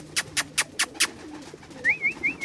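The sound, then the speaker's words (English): Pigeon calls from Pakistani tippler pigeons, white birds with dark heads and tails, on a rooftop in Brooklyn. Five short, sharp bursts come in quick succession, then a wavering higher call repeats a few times. “He got 12 pairs of Pakistani tipplers, graceful white pigeons with dark heads and tails.”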